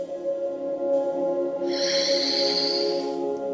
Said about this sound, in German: Und atme jetzt dreimal tief durch die Nase ein und durch den Mund wieder tief aus.